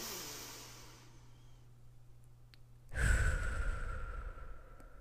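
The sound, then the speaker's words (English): A slow, deep breath taken during a calming exercise: a faint, airy intake, then a pause, then a louder, rushing exhale that trails off gradually. “Then take a deep breath in”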